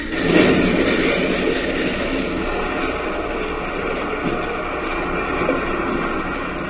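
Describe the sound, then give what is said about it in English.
Locomotive speeding down a hill into a curve where its wheels leave the track and it overturns: a loud, steady roaring rumble with a heavier surge near the start, then an even roar throughout. “They watch the locomotive as it nears the bottom of the hill. Faster and faster it goes as it nears the curve. Then, as it hits the curb, its wheels leave the track, and over it goes.”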